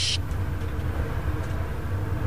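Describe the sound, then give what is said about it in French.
A quiet bus drives along with a low, steady engine rumble. The drone holds even and continuous, and no voices are heard over it. “Imaginez que vous êtes dans le bus, vous en profitez, vous voyagez, on y va, c'est parti.”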